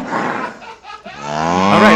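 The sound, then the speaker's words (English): A cow gives one long, drawn-out, aggressive moo, loud and harsh, with a brief dip in the middle before the call swells again and climbs in pitch toward the end. “That cow goes on for too long. That was aggressive.”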